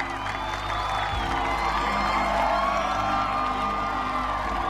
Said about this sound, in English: The crowd begins to applaud Hancock.